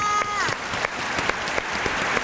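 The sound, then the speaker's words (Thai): Applause for a young contestant on a quiz game show, a dense burst of clapping from a crowd that runs steadily throughout, with brief sharper claps poking out and a faint tonal sweep early on. “ปรบมือให้น้องวีหน่อยค่ะ”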